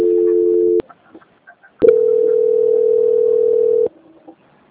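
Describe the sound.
Telephone line tones play during a call transfer: a steady tone stops abruptly, then after a short pause with a few faint low sounds a second, longer steady tone holds for about two seconds before cutting off.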